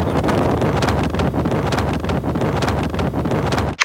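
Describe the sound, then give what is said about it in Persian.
Wind buffeting the microphone while riding a motorcycle: a loud, steady, rough rushing roar that carries on unbroken and cuts off abruptly at the very end. “حله، من پشت موتورم، یه 5 دقیقه دیگه میرسم استودیو.”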